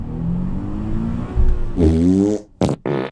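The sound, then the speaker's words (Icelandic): A car engine sputtering and backfiring: a low rumble turns into a buzzy, flatulent splutter, followed by two short, sharp pops, with no voices. “Bíllinn þinn prumpar svo mikið, frændi.”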